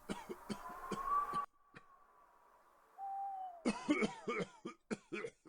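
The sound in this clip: An elderly monk coughs in a cold night wind: two clusters of rapid, harsh coughs, faint overall, separated by a quieter stretch.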